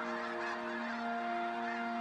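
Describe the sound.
Snow geese wintering in a marsh honk in a dense, continuous chorus of nasal, overlapping calls that stay loud and steady throughout.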